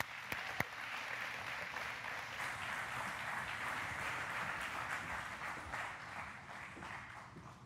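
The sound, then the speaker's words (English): An audience applauding to welcome speakers up at Messiah: a dense, steady wash of clapping holds at an even level throughout, with a couple of sharper individual claps standing out near the start. “Would you give them a hand as I welcome them up?”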